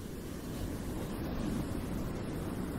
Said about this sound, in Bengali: পর্বত সমান ঢেউগুলো একের পর এক আছড়ে পড়ছে জাহাজের গায়ে।